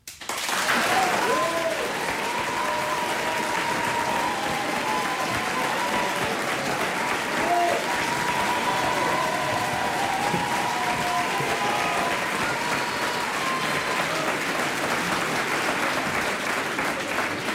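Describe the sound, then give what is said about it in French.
Sustained audience applause in a theatre hall during a staged historical debate, gauged by an applause meter: many hands clapping in a thick, even wash that holds a steady loud level for well over fifteen seconds after a sharp start. “Je mets à l'applaudimètre.”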